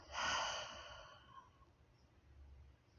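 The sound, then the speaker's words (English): A deep breath during a guided yoga breathing exercise, a single loud, airy exhale that swells at once and then fades slowly over about a second into a faint hiss. “Take a deep breath in here together through your nose. Open your mouth and let it go.”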